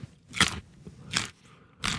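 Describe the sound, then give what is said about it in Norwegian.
Three crisp, loud crunches as teeth bite into a raw Norwegian carrot, evenly spaced with brief quiet gaps between, heard alone without any talk. “Steike god knas. Bankers den. Nå norske grønnsaker på sitt beste, og norske gulrøtter på sitt sprøeste.”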